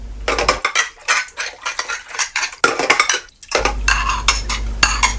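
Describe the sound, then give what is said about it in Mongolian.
Pots and pans clang and clatter together in a kitchen, a busy run of many sharp metallic knocks, scrapes and clinks, fairly loud and continuous, with no talk. “Гал тооны өрөөнөөс тогоо шинэ харшилдах чимээ гарлаа.”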